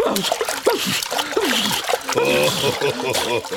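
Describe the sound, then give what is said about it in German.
Busy splashing and sloshing as someone tumbles into a new hippo pool at a zoo, spluttering, with irregular bursts of water noise and voice sounds mixed in throughout. “Da hilft kein Paddeln und kein Strampeln. Schwuppdiwupp. Prustend landet er mitten im neuen Nilpferdbecken.”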